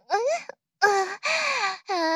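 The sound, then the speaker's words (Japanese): A person crying in four drawn-out, wavering wails separated by short gaps, each voiced sob sliding in pitch, with a small catch of breath after the first and no other talk. “泣きそうに、ならなくてもいいのに。ほら、泣き止んで。”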